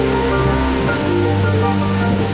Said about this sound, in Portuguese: Impossível não se emocionar diante da cachoeira.